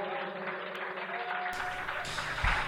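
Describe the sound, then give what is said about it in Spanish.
Audience applause at the close of a festival program, a dense, steady wash of clapping that swells slightly toward the end, with no voices. “Y despedimos el programa aquí con este aplauso que recorre el mar, que recorre la península, que recorre Europa y que sea ruidoso como tiene que ser”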